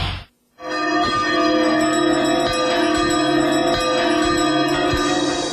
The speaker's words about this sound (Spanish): Si escuchás las dos campanas, puedes terminar sin entender nada.